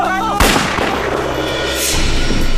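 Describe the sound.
Gunshot fired during a chase on foot, a sharp loud report cutting off a brief shouting voice and followed by dense ringing noise.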